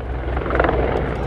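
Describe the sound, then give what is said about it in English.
At least seven Russian Mi-24 Hind attack helicopters flying low over a battlefield in Georgia make a steady, loud roar of rotors and engines with a throbbing texture. No voices are heard. “This is the sound of at least seven Russian Hind Mi-24 attack helicopters, which swooped in low over the battlefield on the afternoon of August 11th to strafe suspected Georgian targets.”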